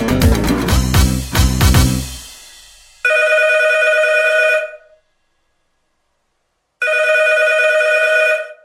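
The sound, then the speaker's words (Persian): A telephone rings with an incoming call to a radio show: two long, steady ring bursts separated by a silent pause, following a short burst of music that fades out. “فکر کنم یکی از توی جاده زنگ زده.”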